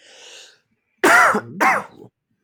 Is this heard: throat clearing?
yes

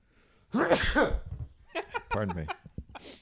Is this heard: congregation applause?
no

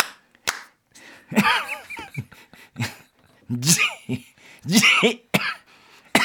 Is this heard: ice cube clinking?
no

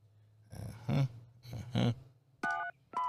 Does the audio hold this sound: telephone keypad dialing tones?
yes

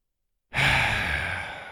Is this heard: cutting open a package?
no

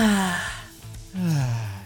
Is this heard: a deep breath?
yes

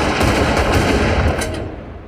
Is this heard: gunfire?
yes

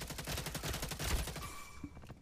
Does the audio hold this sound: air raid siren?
no

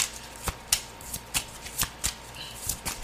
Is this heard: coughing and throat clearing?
no

